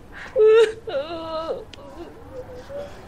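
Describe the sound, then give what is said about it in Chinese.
A woman in labour crying in a hospital maternity ward: a short, loud sob, then a longer wavering wail, trailing into quieter low moans. “现在就把产妇弄哭了，出来。”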